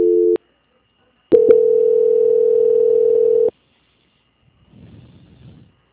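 Telephone line tone during a call transfer: a short steady mid-pitched beep, a pause, then a louder continuous tone lasting about two seconds that opens with clicks, followed by faint low rumbling noise.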